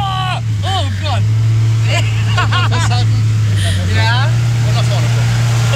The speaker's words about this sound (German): Das merkst du, wie der Motor langsam Drehzahl bekommt.